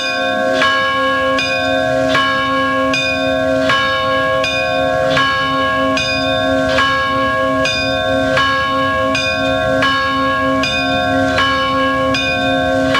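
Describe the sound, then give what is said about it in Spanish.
Church bells ring from a restored two-bell tower of a modernist-style church in Barcelona, sounding a steady, rapid, even run of many bright, resonant strokes over a sustained ringing hum, with no voices. “Un campanario rehabilitado este año. Tiene dos campanas.”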